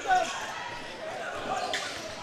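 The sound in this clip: Basketball dribbled on a court during a school basketball game: repeated bounces thump under continuous play-by-play commentary.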